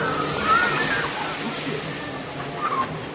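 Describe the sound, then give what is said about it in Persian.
Water empties from a bucket in a steady rushing slosh and gurgle that runs through the whole clip, with faint voices in the background. “سطله که بهت گفتم خالی میشه. خالی شد”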